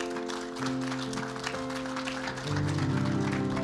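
Audience applause greets guests coming forward, moderate and steady clapping that swells a little near the end, heard over sustained chords of keyboard music.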